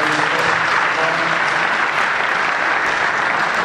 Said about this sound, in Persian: بله، دست بزنید برای عزیزان.